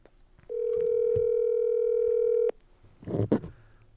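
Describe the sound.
A telephone call rings out as a single steady electronic tone held for about two seconds, then stops, followed by a short burst of faint, muffled noise.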